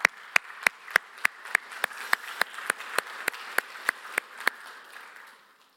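A church audience applauds as a youth reader comes on stage, with a steady run of sharp, evenly spaced claps standing out above a softer bed of clapping that fades away near the end.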